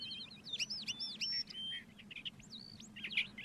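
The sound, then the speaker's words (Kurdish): High, thin chirps from young birds just learning to fly in spring: many quick, sweeping tweets in irregular bursts over a faint low hum. “ئەو باڵندانە تازە فێری فڕین بوون، ناتوانن بچن بۆ هەموو شوێنێک.”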